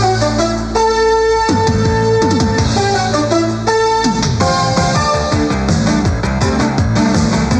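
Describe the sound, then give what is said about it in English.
Theme music for a pay-per-view television channel plays loud and unbroken: a bright instrumental tune of sustained tones and quick melodic runs over a busy rhythmic backing, with no voices. “Viewer's Choice had some incredible theme music. It and did. I think we should just take a listen to it.”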